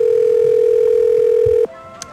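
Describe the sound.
A steady telephone tone plays on a call to a pizzeria, holding one even pitch for over a second and a half. It then cuts off abruptly with a click, leaving faint line hiss and one more brief click.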